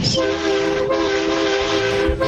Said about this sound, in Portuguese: Vai, buzina aí.